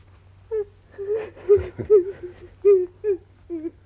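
A woman cries in many short, broken sobs and whimpers, each a brief wavering high cry in an uneven rhythm, with no talk.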